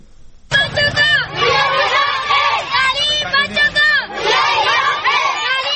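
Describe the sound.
Dozens of schoolgirls and schoolboys shout and chant slogans together at a street march through a village in Swabi promoting education. Their loud, repeated group cries come in surging bursts and carry on throughout.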